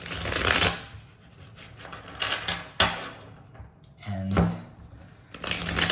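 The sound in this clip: Tarot cards being shuffled by hand in several quick riffling bursts, loud crisp rustles separated by short pauses and a sharp snap of the deck.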